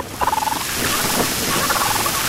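Turkeys gobble, opening with a quick warbling burst of rapid pulses, then a few higher calls over a constant noisy background.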